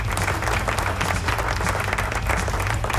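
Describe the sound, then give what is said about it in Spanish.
A recorded applause sound effect: loud, dense clapping mixed with crowd noise, steady and unbroken from start to finish. “Y ahí está, suénalo, suénalo. Ahí están los aplausos.”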